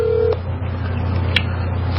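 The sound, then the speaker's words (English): Telephone keypad dialing tones as a call is placed to a private line number, with a short clear tone at the start followed by a steady low hum and a brief high blip. “See if I can get Scott on my phone here. Here we go. See if I'm able to be more lucky with this private line number.”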